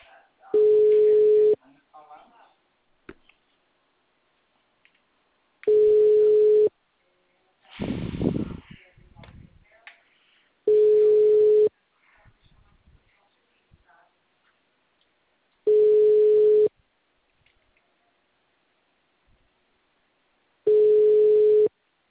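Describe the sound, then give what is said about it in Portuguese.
Telephone line tones sound while a call is placed. Five evenly spaced steady tone bursts of about a second each recur every five seconds, with near silence between them apart from one brief noisy rustle after the second tone. “Tô ligando agora.”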